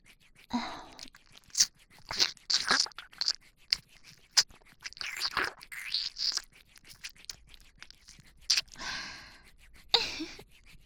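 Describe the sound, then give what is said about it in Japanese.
ASMR ear licking and wet mouth sounds come close and quiet: irregular smacks, slurps and soft clicks mixed with breathy exhales. “お耳舐められるの気持ちいいですか。”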